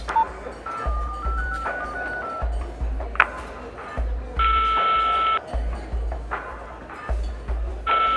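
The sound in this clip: A telephone number is dialed as a run of short electronic beeps at shifting pitches, followed by longer, higher steady tones over a low, pulsing rumble.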